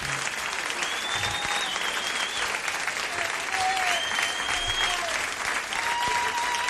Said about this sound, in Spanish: aplauso grande para el Pepe